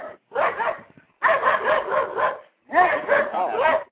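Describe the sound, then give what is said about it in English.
A dog barking in three clustered bursts of rapid, yelping barks separated by short pauses, fairly loud. “sorry about that. You know, poor dog. I think he had something to say too.”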